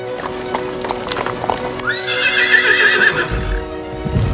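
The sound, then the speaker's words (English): Horses gallop with rapid hoofbeats during a chase out of a city, then a loud, shrill whinny rises over the hooves before more hoof noise follows. “Quasimodo, Esmeralda, and Captain Phoebus rode long until they were outside the city of Paris.”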